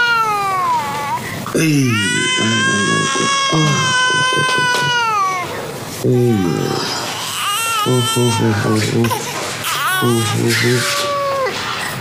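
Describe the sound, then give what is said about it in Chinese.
An infant cries in loud, strained wailing bursts, several long harmonic-rich cries that bend downward in pitch, separated by short breaths and choppier sobbing sounds. “我一抱上来就不哭了。”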